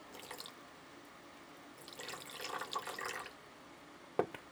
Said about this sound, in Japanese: この液体を釜に入れまして、